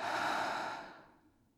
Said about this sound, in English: Breathe with me for a second, honey. In. Out.